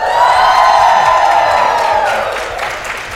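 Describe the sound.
Audience at a Princeton U.S.-China Global Governance Forum event breaks into loud, steady cheering and applause with whoops, sustained throughout and fading slightly toward the end.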